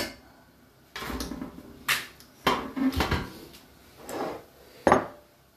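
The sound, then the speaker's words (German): Several irregular knocks and clattering scrapes of a utensil in a bowl as thawing spinach is mixed into seasoned minced meat with egg white, sharp hits separated by quiet pauses. “So, unser Spinat taut so langsam immer weiter auf. Den mischen wir hier.”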